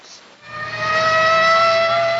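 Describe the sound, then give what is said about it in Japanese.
A civil defense siren sounds at 10 p.m. to signal the overnight halt of all cars in the prefecture for a road-traffic changeover. A loud, steady tone with rich harmonics swells in after a brief quiet start and holds to the end. “午後10時、サイレンが鳴り響く。”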